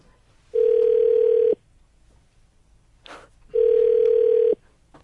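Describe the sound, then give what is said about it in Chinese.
An outgoing telephone call produces two steady ringback tones, each about a second long, separated by a pause of roughly two seconds. A short, faint noise falls between them. “Churn 姐会不会故意不接我们电话？”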